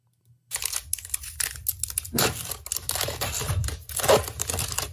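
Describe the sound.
A child tears open a foil pack of 2020 Bowman Chrome baseball trading cards, making sharp crinkling and ripping sounds in quick, uneven bursts with brief pauses.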